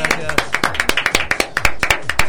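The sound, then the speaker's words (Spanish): A small audience claps for an award presented for participation in a workshop. Sharp, distinct hand claps fall in a quick, fairly regular rhythm while a voice talks over them. “¡Aplausos! ¡Muchas felicidades!”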